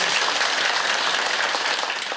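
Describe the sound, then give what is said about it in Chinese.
Applause from a gathering at a temple inauguration ceremony: dense, steady clapping that stays even and unbroken for the whole clip. “拍手啊！”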